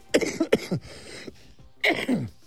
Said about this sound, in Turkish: Evet su molası verdik, bir anda gelen bir öksürük.